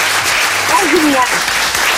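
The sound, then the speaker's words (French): Loud, dense applause with cheering marks a contestant winning a cash prize in a game. The steady clapping fills the whole moment while a voice speaks over it. “Bravo, vous pouvez applaudir.”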